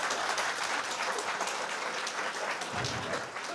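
Audience applause fills the whole stretch: a dense, steady clatter of many hands clapping, evenly loud from start to finish with no pause.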